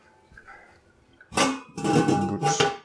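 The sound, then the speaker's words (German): A towel rubbing dry a cooking pot: three broad, scuffing bursts follow a quiet start, and the later two are longer and louder. “Und den Topf trockne ich auch noch ab.”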